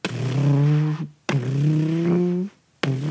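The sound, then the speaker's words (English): Three engines kick on one after another inside an aircraft hangar. Each is a loud revving whine with a low, slightly rising tone that ends abruptly, and the third starts right at the end. “three engines kick on, and you look back, and as they're closing the cockpits”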